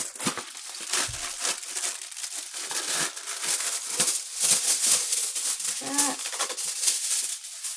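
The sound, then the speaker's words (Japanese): Aluminium foil is pulled off a roll in a steady stream of bright crinkling and crackling rustles, swelling louder and softer throughout with no talk over it. “じゃあアルミホイル引きます。”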